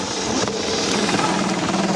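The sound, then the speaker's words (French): Steady engine roar from an Audi Quattro rally car's five-cylinder engine: a dense, continuous drone that holds an even level throughout, with no clear breaks or gear changes. “La Quattro, ce fameux 5 cylindres de fou.”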